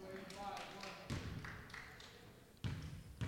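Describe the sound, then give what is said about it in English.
A basketball bouncing during a basketball game: a few dull thumps under ongoing talking. “That's the sound of it bouncing. What's the sound of one ball bouncing?”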